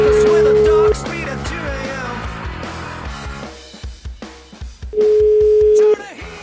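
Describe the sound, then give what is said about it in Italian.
Two steady, loud telephone tones while placing a call, each lasting about a second, separated by a few seconds of background music and sound. “Io vorrei chiamare Albino, però, ragazzi.”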